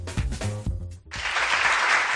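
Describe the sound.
Applause on a Spanish radio programme: a voice speaks for about a second, then dense clapping bursts in and continues steadily to the end.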